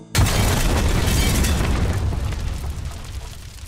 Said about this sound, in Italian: L'esplosione ci disintegrò tutti e quattro.